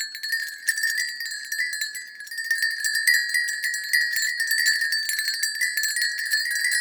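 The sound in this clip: Bell loop recorded with an XY microphone pair: a continuous, bright jingling and ringing texture with steady, even loudness throughout and no voices.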